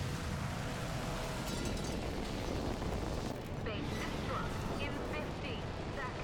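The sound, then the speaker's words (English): Explosions tearing through a launch silo structure as a heavy spacecraft rises, heard as a dense, continuous roaring rumble with no clearly separate blasts, loud and steady throughout. “Explosions tear through the structure, raining debris around the capsule.”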